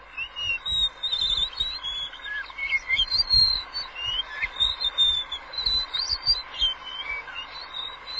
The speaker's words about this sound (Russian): Вы слышите голос синей птицы. Синяя птица, другое название у нее — лиловый дрозд.